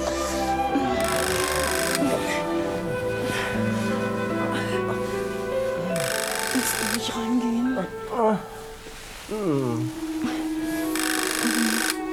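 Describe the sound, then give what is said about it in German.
A telephone bell rings in a few separate bursts spaced several seconds apart, a bright metallic jangle over people talking. “Ach, das ist bestimmt Parkinson. Der ruft immer zu den unpassendsten Momenten an.”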